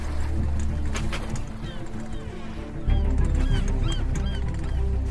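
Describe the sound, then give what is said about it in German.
Seagulls call over a sailing ship at sea as it nears a coast. A few thin, high cries rise above a steady, low rush of water that grows louder near the middle. “Hört ihr die Möwen? Wisst ihr, was das bedeutet? Wir nähern uns einer Küste.”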